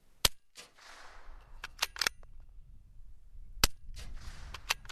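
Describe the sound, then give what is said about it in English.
Rifle fire with an adjusted sight: two sharp, dry cracks stand out, separated by a gap and each followed by a few lighter mechanical clicks, with soft hissing swishes in between, all fairly quiet and without voices. “I shoot again with the adjusted sight.”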